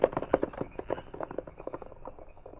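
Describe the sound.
Hooves clip-clop as horses carrying mounted men set off: many quick, uneven hoofbeats in a loose trotting rhythm, fairly faint and thinning slightly toward the end.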